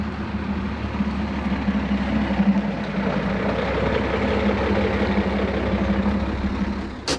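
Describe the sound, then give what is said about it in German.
Engines of Land Rovers and a three-ton truck drone steadily in a low, even rumble, with a faint tonal hum running throughout and a brief tick at the very end. “Die beiden Land Rover halten am Straßenrand in der Nähe der Signalbrücke. Der Dreitonner fährt weiter zur Predego-Brücke.”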